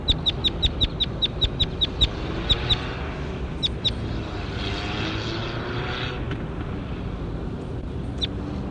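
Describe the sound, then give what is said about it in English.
Birdsong recorded in the field: a quick run of many sharp, high chirps, then sparser scattered notes, all over the steady drone of a propeller aircraft. “That was bird 21. Here he is again.”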